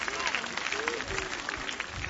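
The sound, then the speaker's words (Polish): A crowd applauds near a stage at a gathering before Mass. The steady clapping has a dense, even texture, and voices sound underneath it. “Raz jeszcze brawa dla Madzi, dla wszystkich naszych przyjaciół, chorych i cierpiących.”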